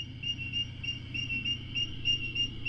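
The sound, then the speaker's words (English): Crickets of several species singing together: high, steady pulsed chirping in a regular repeating rhythm, continuous and moderately loud over a low background rumble. “We started hearing these crickets, and we said, okay, there's one species. And then we listened a little more. No, there's two species. No, there's three. No, there's four. And then we made this recording.”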